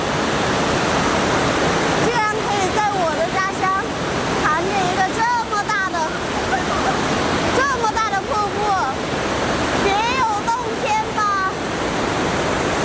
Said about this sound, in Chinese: 在峡谷吊桥上行走，头顶是上百米的岩壁，脚下是湍急的瀑布